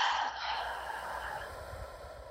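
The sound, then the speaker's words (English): A deep breath exhaled from the belly in a guided breathing exercise, a single long, airy whoosh that starts strongest and gradually fades away, soft and alone. “So empty out all your air. And fill the belly. Exhale.”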